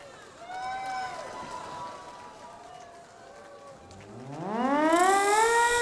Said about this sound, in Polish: Syrena, odpalaj!